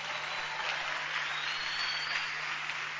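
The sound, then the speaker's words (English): An audience claps hands at a church service, a dense continuous patter of many hands held at an even level for a few seconds, with no voices over it. “Oh, clap your hands for the Lord”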